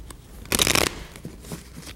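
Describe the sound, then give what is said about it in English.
Playing cards from an ordinary deck are shuffled in one quick, crisp riffle burst, followed by a few faint ticks of handling. “Ordinary deck of cards. Nothing unusual about them.”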